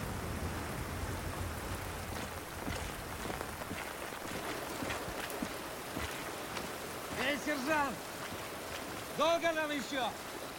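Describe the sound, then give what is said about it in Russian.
Heavy rain pours down on a forest road at dusk, a dense, steady hiss running throughout; a few short voiced sounds rise over it near the end. “Сумрак. Льет сильный дождь.”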